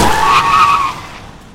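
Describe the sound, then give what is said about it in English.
A truck skids on a road, its tires letting out a loud, sustained squeal that trails off and fades away toward the end, with no voices. “The truck had seemingly come out of nowhere, flattening Eleanor”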